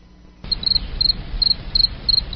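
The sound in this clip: Crickets chirp in quick, high, pulsing trills that begin abruptly after a brief quiet moment and repeat steadily over a low background rumble.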